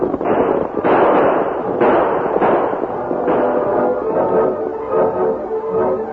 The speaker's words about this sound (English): As the outlaws rode out in front of the buckboard, firing shots over the heads of the deputy and the masked man, the Lone Ranger quickly pulled to a stop.